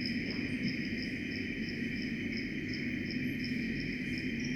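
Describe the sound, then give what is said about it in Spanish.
Insect stridulation: a continuous high-pitched trill made of fast, evenly spaced pulses that runs through the whole clip over a steady low rumble. “Yo ahora escucho estridular y eso no suena en ese lugar.”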